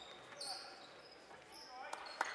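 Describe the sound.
A basketball is dribbled on the court during a boys' high school game between Minden and Doniphan/Trumbull. A few sharp bounces sound over a steady hum of voices and gym noise.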